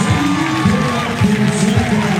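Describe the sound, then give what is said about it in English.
Bronx cheer from a baseball crowd at Kentucky Proud Park during a game against Arkansas: loud, sustained jeering crowd noise that holds steady throughout. “And a Bronx cheer erupts from the folks here at Kentucky Proud Park.”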